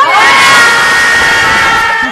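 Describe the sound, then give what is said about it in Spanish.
A group loudly shouting a greeting together, many voices yelling in one long high-pitched cry that stays loud and eases slightly toward the end. “A ver, que saluden todos, así, grito grande.”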